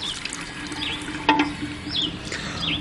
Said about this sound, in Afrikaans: Wryf jou hande goed teen mekaar, Poen. So, Toekie. Ja. En dan spoel jy die seep af.